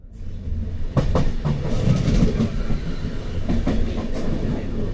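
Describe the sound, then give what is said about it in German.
A regional express train rolling through the Po Valley near Bergamo, with a steady low rumble heard from inside the carriage and many sharp clicks and clacks of wheels over the rail joints. “Der Regionalexpress rollt durch die Poebene. Wir sind kurz vor Bergamo. Im Waggon staut sich muffige Luft”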